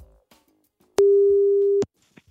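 A single steady mid-pitched telephone tone as a call is placed, lasting just under a second, alone among faint clicks and rustles.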